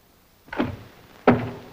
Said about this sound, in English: Seward observes Briggs closing a dresser drawer